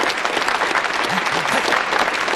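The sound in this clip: Applause from an audience welcoming a speaker to the stage, dense continuous clapping that holds at an even, fairly loud level throughout.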